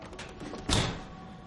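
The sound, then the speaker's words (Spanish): A door shutting in a film scene, with quiet movement first and then one sharp, firm impact near the middle that fades out gradually. The sound is faint overall. “Abre la puerta y cierra tras de sí.”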